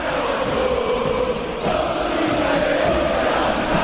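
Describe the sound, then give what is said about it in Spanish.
River Plate football fans chant in their stadium, a dense, continuous wall of massed voices with a steady sung tone running through the whole stretch. “Hace rato que cada uno de los cánticos del público de River tiene que ver justamente con la figura del presidente de la AFA y no lo consideran muy bien que digamos.”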